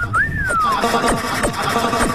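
A single whistle glide that jumps up in pitch and then slides slowly downward, sounding loudly over a dense, noisy backdrop marked by repeated falling swooshes.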